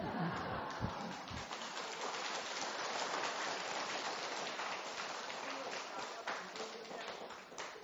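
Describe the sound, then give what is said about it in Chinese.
An audience applauds during a Chinese-language Buddhist talk about Pure Land faith. A voice is heard briefly at the start, then dense, steady, rain-like clapping carries on throughout. “精彩要怎么样？哎，我们啥点精彩，听到掌声。”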